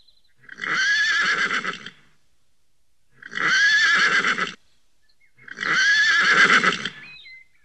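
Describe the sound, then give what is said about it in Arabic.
A horse neighs three times in long, loud, high whinnies, each lasting over a second and separated by short pauses, with no talk. “حسنا، اهدأ يا حصان الجميل وخذ قطعة من السكر.”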